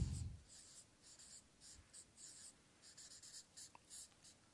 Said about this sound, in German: Wenn Usia Gott gehorchte, wenn er, ich schreibe das noch ergänzend dazu, er